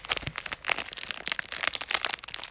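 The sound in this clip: A plastic baggie of small building blocks crinkles and crackles in many quick, uneven rustling bursts at a soft level, with no voices.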